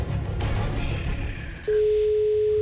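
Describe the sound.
Ringing tone of an outgoing telephone call: after a stretch of noisy line hiss, a single steady mid-pitched tone sets in and holds loud and unbroken to the end.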